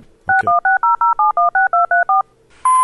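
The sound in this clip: Telephone keypad dialing tones as someone calls a number: a quick, even run of many short, bright two-tone beeps after an initial click, followed by a steady, higher sustained tone.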